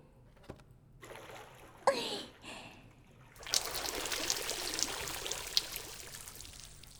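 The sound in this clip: Water poured to rinse someone, a few short splashes early on, then a steady, fairly loud splashing stream that runs to the end.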